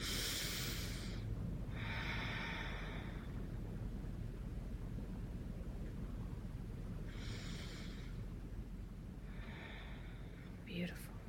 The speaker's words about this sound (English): Take three lovely deep breaths down into the hara.